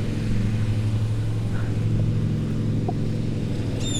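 Ride-on lawn mower cutting grass, its engine a continuous low, rumbling drone that stays steady and fairly loud throughout, with no talking.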